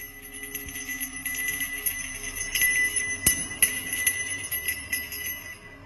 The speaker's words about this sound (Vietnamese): Quả chuông đang nằm im lìm trên cây cột gỗ, cảm nhận được nguyện vọng của bóng quỷ hữu duyên, rung lên từng hồi lanh lảnh.